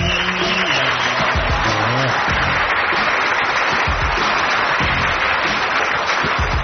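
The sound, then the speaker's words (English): Steady applause fills the whole stretch, a continuous wash of clapping, with a few brief tonal sounds and low thumps mixed in near the start. “Where's the applause for that?”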